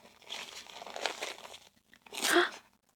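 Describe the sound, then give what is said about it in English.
Crinkling and rustling of a baby's diaper being pulled up snugly and fastened, papery crackles in uneven bursts with a louder crinkly burst near the end. “Okay, let's let's pull this diaper up nice and snug. Can't have any leaks for this little baby.”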